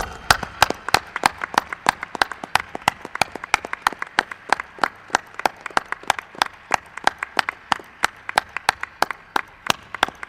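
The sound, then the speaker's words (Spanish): Applause from a gathered audience comes as a steady, even run of sharp individual claps, sounding like a small number of people, and lasts about ten seconds. “estoy seguro que es el aplauso más grande que le han dado a Rosso de Luna”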